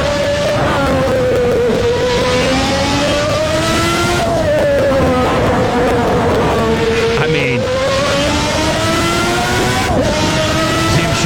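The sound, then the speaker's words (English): A race car laps the Nürburgring circuit at very high speed, its loud engine droning steadily throughout, the pitch repeatedly sliding and then jumping as gears change. “And this is Nürburgring, where the lap is like 6 minutes, 7 minutes long. Yeah. It's a giant long lap. They go up 200 miles an hour to it.”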